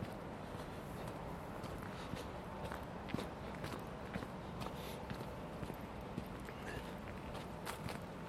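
Footsteps on an urban walk: many faint, soft steps in a steady rhythm over a constant low background hiss.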